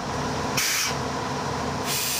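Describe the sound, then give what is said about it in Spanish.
A train's front engine idles but will not hold its idle, giving a steady, loud hissing rumble with brighter hiss in some stretches. “El motor delantero de esta máquina no mantiene el mínimo. Pues no lo sé. Lo tengo al ralentí.”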